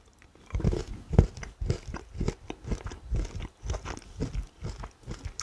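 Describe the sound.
Someone biting and chewing a piece of chocolate during a tasting, with many crisp, crunchy chomps in an uneven rhythm, moderately soft and heard alone without talk.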